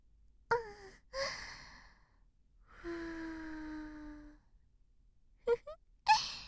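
Soft breath blown into a listener's ear: a few short, airy puffs and one longer, voiced, sighing breath, with quiet gaps between them.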